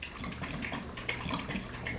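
A dog drinking water: a continuous wet lapping and splashing texture that runs steadily for about two seconds at moderate loudness, with no voices.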